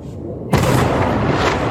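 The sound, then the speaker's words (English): Explosions of Iranian missiles intercepted by air defense over Tel Aviv at night: a sudden heavy boom breaks in after half a second of low noise, then gives way to continuous loud rumbling and crackling roar. “The night sky lit up with explosions as Israel's air defense system intercepted one Iranian missile after another.”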